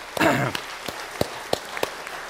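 A church audience applauds with sparse hand claps: a brief louder burst at the start, then a few sharp, separate claps spaced apart.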